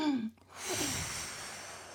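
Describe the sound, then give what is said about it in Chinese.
A slow, deep breath drawn during a demonstration for an elderly patient: a brief voiced sound, then a long, steady, airy breath that holds at an even level. “慢慢深呼吸，来跟着我看着”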